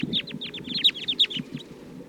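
Many sharp, high chirping calls from a restless flock of about fourteen wild birds in a treetop repeat in quick irregular bursts over a steady low rumble.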